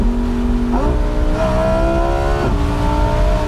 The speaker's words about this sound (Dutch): Huracan heeft een atmosferische 10-cilinder V10. Deelt hij met de Audi R8 onder andere. Klinkt echt fantastisch. Ik kan nog een beetje terugschakelen.